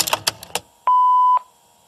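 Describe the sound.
A single steady mid-pitched beep from an answering machine starting message playback, about half a second long, preceded by a few sharp clicks and followed by quiet.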